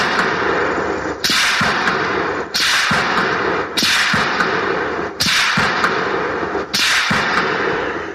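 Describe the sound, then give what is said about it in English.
Sharp, whip-like cracks of a .30-06 rifle shot heard from 200 yards, five loud snaps evenly spaced about every second and a half, each trailing off into a brief hiss. “All right, here's a 30-06 from 200 yards.”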